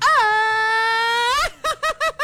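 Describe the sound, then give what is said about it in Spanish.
A Mexican grito, a loud festive shout: one long, sustained high-pitched vocal cry with a wavering tone that rises at its end, then four short, sharp yelps in quick succession. “A ver, échate un grito mexicano”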